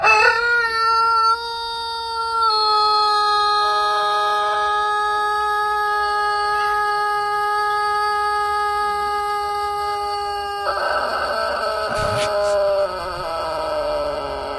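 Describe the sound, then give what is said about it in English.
An abnormally long rooster crow, one sustained cry that holds a steady pitch for more than ten seconds before turning louder and harsher toward the end. “That's not been enhanced. That's an actual rooster crowing every single day.”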